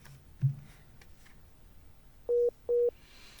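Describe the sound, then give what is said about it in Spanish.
Two short, identical beeps signal another call coming in on a phone line. The mid-pitched tones sound in quick succession after a faint thump, over a quiet, slightly hissy line. “Pasa que está entrando otra llamada.”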